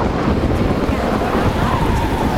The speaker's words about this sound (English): But please, everyone, go inside until the storm passes. Hopefully it won't last long.